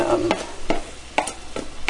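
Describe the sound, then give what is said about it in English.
Strained rice is scraped into a pot of sizzling onions. A few scraping and stirring strokes break over a steady frying sizzle. “All right, I have my strained rice here, and I am scraping that into the”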